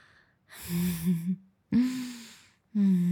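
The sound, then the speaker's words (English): Heavy breathing as someone catches their breath: three loud, breathy, partly voiced exhalations like sighs, each separated by a short pause. “I need to catch my breath.”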